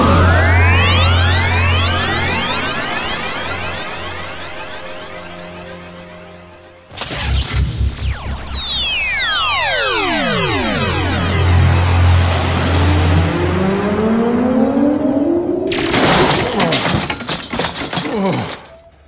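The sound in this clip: A sci-fi teleport beam effect from a Turbo Power Beamer in a children's audio play. Loud synthesized tones glide up and down in layered whooshing sweeps, break off abruptly midway, then resume and end in a bright, buzzing burst.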